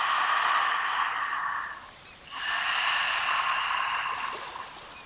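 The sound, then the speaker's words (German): Soft, hissing ujjayi breath drawn and released through a narrowed throat, an ocean-like rush in two long phases separated by a brief quiet dip, steady and moderately loud with no talk. “hier ein sanftes, leises Atemgeräusch entstehen lassen, ein Meeresrauschen, die Meeresatmung, Ujjayi-Atmung. Das ist ein leichter Kehlton, wenn du Stimmritze verengst”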